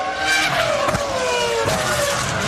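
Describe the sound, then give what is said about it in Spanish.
A Renault racing car engine roars with a loud, high, steady note that slides downward, jumps back up and falls again. The sound is continuous and dense throughout. “Ruge el motor del Renault.”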